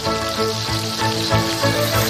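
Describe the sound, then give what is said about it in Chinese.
Tomatoes poured into hot peanut oil sizzle in a pan while a home-style tomato and eggplant dish cooks, giving a loud, steady, dense hiss. “爆香。 倒入西红柿。”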